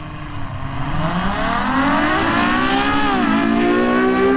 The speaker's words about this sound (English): Now, when it comes to a supercar, a lot of people, and even myself, if I were to buy it, I'd be buying it for a sound like this.